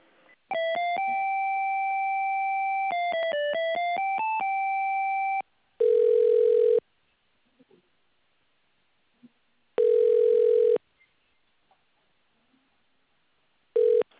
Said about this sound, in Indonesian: Saya mau transfer call kamu sama HR department kami nih.